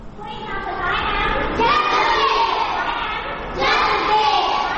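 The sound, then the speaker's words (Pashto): Children's voices at a school for working children in Peshawar: many kids talking and calling out at once in a loud, continuous jumble that swells again toward the end. “دا اوازونه د خواري مزدوري کوونکو ماشومانو لپاره په پیښور کې د رڼا چایلډ ویلفیر فاونډیشن په نامه ښوونځي دي.”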